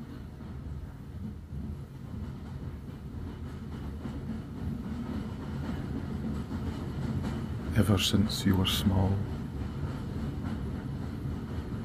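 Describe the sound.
The Hogwarts Express train gives a steady, low rumble beneath a speaking voice, with a short burst of brighter, louder noise near the end.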